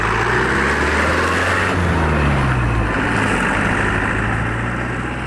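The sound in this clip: A loud, continuous engine drone comes from a man's beloved motorcycle ridden at high speed along a road, the low note steady with slight shifts in pitch throughout.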